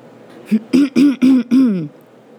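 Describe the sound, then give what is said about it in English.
A person clears their throat in five short, rough, voiced bursts, each brief and the last a little longer, loud and heard alone. “I cleared my throat and read.”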